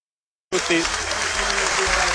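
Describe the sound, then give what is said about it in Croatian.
Crowd applause marks the end of the first half of a football match. It breaks in abruptly after a moment of silence and continues as a loud, steady wash of clapping to the end. “Pljesak za kraj prvog poluvremena.”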